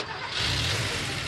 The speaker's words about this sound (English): That's the sound of an engine running on the strength of Castrol Edge.